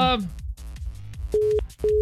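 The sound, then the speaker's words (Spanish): A phone line's busy tone after the caller hung up: two short, steady, even beeps near the end, following a brief burst of other sound and heard over faint background noise. “Ay, colgó, ya se le cortó. Se le fue el saldo.”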